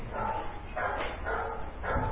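A phone sound that resembles a dog barking: several muffled, bark-like bursts repeat in a steady rhythm over a thin, continuous background hiss.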